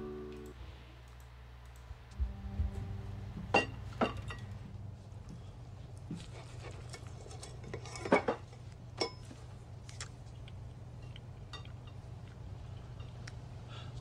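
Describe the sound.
Dishes and cutlery clatter at a dinner in a scene from the TV series Dexter: sparse, faint clinks and knocks over a low, steady hum, with a few sharper clatters standing out.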